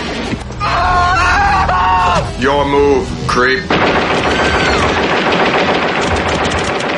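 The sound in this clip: Loud, dense machine-gun fire from robots shooting people in a science fiction film, sustained through the second half after a stretch of screaming voices mixed with the shooting.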